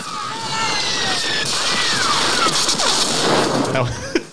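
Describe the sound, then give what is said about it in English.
Blaster fire sound effect from Imperial stormtrooper weapons: repeated laser-like zaps with sweeping pitch, layered over dense, continuous crackling noise that lasts the whole time. “Sounds like Imperial troopers have entered Vietnam. They're worse shots than the Viet Cong because they don't hit anybody.”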